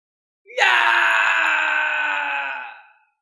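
A single drawn-out agonized scream, shrill and loud, starting sharply and held at a steady pitch for over two seconds before trailing away into silence.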